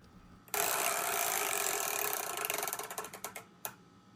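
A chore wheel spins with a fast, dense run of ratcheting clicks. The clicks blur together at first, then thin out and slow into separate ticks before a last single click.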